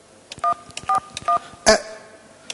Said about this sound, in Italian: Ma chiamo l'arcigay, se no, sono nascosti tutti. Fammene fare un altro.